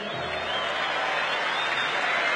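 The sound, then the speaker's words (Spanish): Audience applause, a continuous wash of many hands clapping at a steady, moderate level for about two seconds without distinct peaks or pauses. “Un aplauso para los muertos vivos.”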